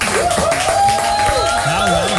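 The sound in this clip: Applause for a studio guest in the Radio Veronica Café, a dense patter of clapping running beneath a loud, animated voice.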